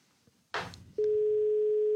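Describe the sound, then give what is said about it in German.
A telephone call to someone in Berlin being dialled: a short burst of noise, then a loud, steady tone that holds for about a second before cutting off. “wollen wir in Berlin anrufen bei Matthias Niederberger. Warte, lass mich schnell hier. Nicht, dass ich jetzt den Leon wähle.”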